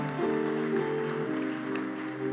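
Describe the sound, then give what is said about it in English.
Church audience clapping together in a steady wash of applause, loud and sustained for a couple of seconds, with a faint sustained tone beneath it. “Give the Lord a clap offering, someone.”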